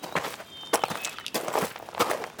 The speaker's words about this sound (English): The school teacher walked away.